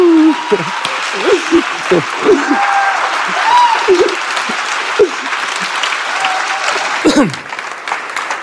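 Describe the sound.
Loud, steady applause and whooping cheers fill a church as the audience welcomes a guest speaker from New Zealand. The clapping runs continuously throughout.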